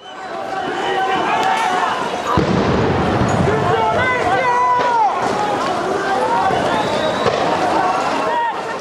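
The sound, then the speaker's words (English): Protesters in Colombia run from police during anti-government demonstrations. Loud, continuous shouting and yelling voices mix with hurried running movement and rough bursts of crowd noise. “This is the sound of protesters in Colombia running away from police as demonstrations continue against the government.”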